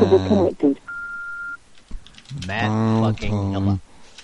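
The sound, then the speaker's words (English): A single steady electronic telephone tone from an online dial tone generator, lasting under a second, set between stretches of a man talking. “Dial tone generator. I typed it into Google.”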